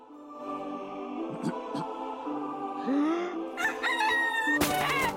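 A cockerel perched on a low wall in falling snow crows with strained, rising harmonic calls, ending in a harsh, noisy burst.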